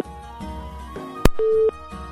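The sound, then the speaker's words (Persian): A telephone busy tone cuts in after a caller's line to a radio show drops. A sharp click is followed by one short, steady mid-pitched beep over a bed of sustained background tones. “فکر میکنم تماس استاد عبدالقدوس هم قطع شد متاسفانه”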